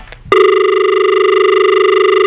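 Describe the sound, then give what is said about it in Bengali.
Telephone line tone for a caller, a loud, continuous, steady tone that starts abruptly after a brief click and holds without a break. “বন্ধু phone লাইনে অনেকক্ষণ ধরে রয়েছে, বন্ধু ফোনে একবার যাই শুনি”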